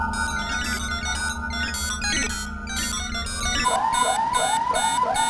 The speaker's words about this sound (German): Der Alarm ist aus.